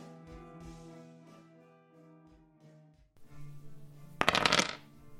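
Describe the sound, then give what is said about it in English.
A baseball rookie card being torn up, heard as a brief, loud ripping burst near the end, over steady sustained tones. “It's a rookie card from some old dude named David Justice. I don't know who he is. But what I do know is I don't need him anymore because now I'm an adult and all I care about is stocks. And I tear it up into a million pieces.”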